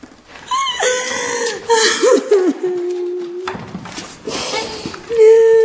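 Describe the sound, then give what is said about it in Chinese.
Loud crying in several wailing bursts, the voice sobbing with wavering pitch and breathy gasps between cries. “南宫，南宫，你怎么哭了？”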